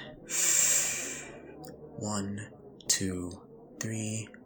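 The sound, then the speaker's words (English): A deep breath drawn in during a guided breathing exercise, a soft airy rush lasting under a second, followed by a few short bursts of voice. “So then, on my cue, breathe in.”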